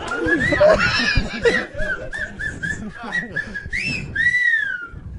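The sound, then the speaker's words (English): A person whistling a handful of short, wavering notes, ending on a longer sliding tone, mixed with snickering laughter and background voices. “That was me whistling.”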